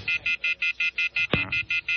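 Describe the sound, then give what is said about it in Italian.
A telephone line tone sounds after a caller hangs up: a steady, rapid series of high, evenly spaced beeps runs throughout, broken once by a sharp click partway through. “Vabbè, ha buttato giù il telefono”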